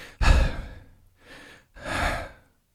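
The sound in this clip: A person takes a deep breath in three breathy sounds with no talk: a sharp, loud first breath, a softer one, then a longer, fuller breath that fades out.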